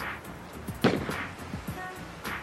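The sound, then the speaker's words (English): Gunfire in a video scene of a trashed neighborhood: one sharp, loud bang stands out, with fainter cracks and rumble around it. “And then people running and gunshots.”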